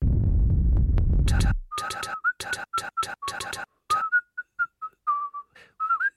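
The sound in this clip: Melodic whistling of short, clear notes in a quick halting rhythm, some held and some clipped, sounding alone after a loud, low rumbling noise that fills the opening second and a half.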